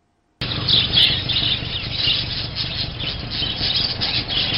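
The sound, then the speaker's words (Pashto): Many birds squawking and chirping at a bird market with shops selling various kinds of birds in Jalalabad, a dense, continuous chatter of overlapping calls, fairly loud and steady throughout, with no talking. “د مرغیو دا شور د جلال آباد خار ډنګاړې ته سیرمه د مالګي لوکوسی اوریدل کیږي چرته چې د ډول ډول مرغیو د خرسلاو دوکانونه برانستل شوي”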